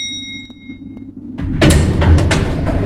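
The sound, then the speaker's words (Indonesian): An elevator door opens on the fourth floor of a quiet mall at night. A steady electronic tone is followed by a sudden broad rumble and clatter as the door slides open. “naik ke lantai 4 menggunakan lift. Begitu pintu lift terbuka di lantai 4,”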